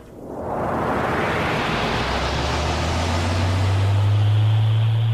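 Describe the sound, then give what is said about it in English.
An escape capsule launches with a sudden rushing whoosh that swells into a loud, sustained roar, while a deep low hum grows stronger toward the end. “Get in the escape capsules! Arthur and I'll take this one. Zaphod, you and the others take the left-hand one. Right! Press the go stud, Arthur.”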